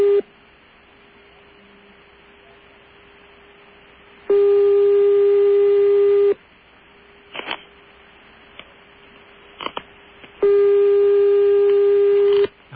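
Telephone tone after a call is cut off: a long, steady mid-pitched tone runs throughout, broken by two loud, buzzy tone bursts of about two seconds each, with a few faint clicks between them.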